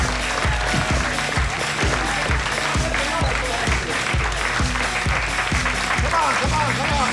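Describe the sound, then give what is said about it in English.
Applause and cheering from an audience at the close of a live comedy show, a steady wash of clapping and shouts that runs unbroken over a loud, pounding music beat. “You can do better than that. Make some more noise.”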